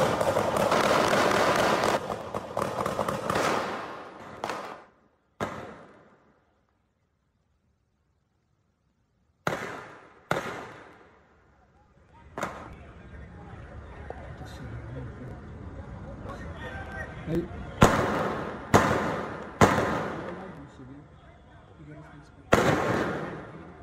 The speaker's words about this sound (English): And so this shooting, how long did this shooting last? Ooh. That's quite a while, right?